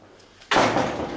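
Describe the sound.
A door being shut with one sudden, loud impact, followed by a broad rushing noise that fades slowly.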